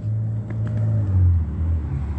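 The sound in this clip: A car drives by on a street, a steady low rumble that swells slightly midway and holds loud to the end.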